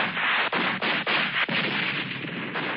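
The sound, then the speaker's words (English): Army guns fire at UFOs in old stock film footage: four sharp reports punch through a steady, muffled, band-limited roar. “Of course, nothing that the stock footage shoots at the UFOs works.”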